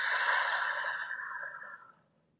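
A single deep breath, a soft, airy rush lasting about two seconds that trails off into silence, faint and heard alone without talk.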